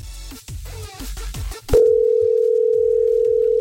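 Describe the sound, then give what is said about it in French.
A telephone ringing out unanswered on a line with no answering machine. After a moment of talk, a loud, steady single-pitched tone starts and holds unbroken to the end. “Ah bah, ça sonnait illimité, sauf si tu avais payé pour avoir un répondeur”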